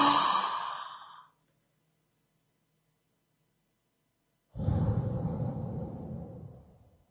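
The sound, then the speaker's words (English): Two big breaths, a breath in and a breath out, each a long, airy rush that gradually fades, separated by about three seconds of silence. “I would like for you to take one big breath in.”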